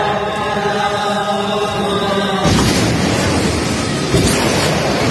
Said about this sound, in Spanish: esto que estamos escuchando son las bombas israelíes en medio de una misa en la única parroquia católica de Gaza, la parroquia de la Sagrada Familia